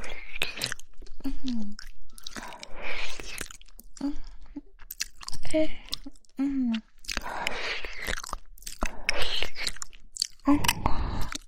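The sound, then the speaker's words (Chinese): Biting and chewing of food, with many crunchy and wet mouth sounds repeated throughout. A soft whispering voice runs over the eating. “好，让我把你吃干干净净的。”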